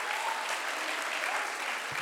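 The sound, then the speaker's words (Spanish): Congregation clapping hands during a church service, a steady, dense wash of applause that runs unbroken and fairly faint throughout. “Somebody clap your hands”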